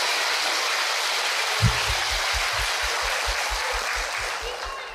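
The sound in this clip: Applause from an audience of young listeners at a Buddhist nun's dharma talk, a steady wash of clapping that gains a regular low thumping pulse partway through.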